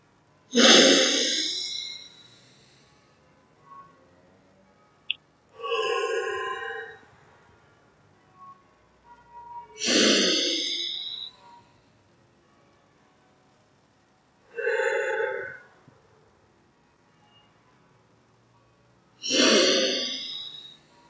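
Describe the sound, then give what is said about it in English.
Slow, deep breaths during a guided breathing exercise: five long, breathy inhale-and-exhale sounds, each lasting about two seconds and separated by quiet pauses, with no talking. “Keep your eyes open for a moment and find your breath. Take control of it for three deep cycles of inhale and exhale.”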